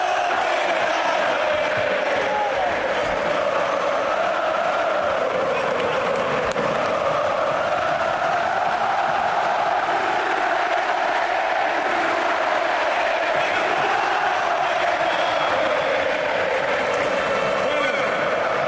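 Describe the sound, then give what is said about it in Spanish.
Football players and a packed stadium crowd chant Cristiano's name together, a loud, continuous roar of voices that holds steady without breaks. “Estos son los jugadores cantando Cristiano quédate, y se une todo el público.”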